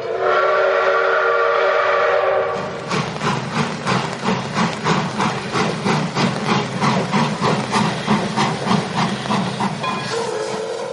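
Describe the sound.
A steam train whistle sounds first as a loud sustained blast of about two seconds, then gives way to many rhythmic, hissing chuffs that carry on steadily to the end.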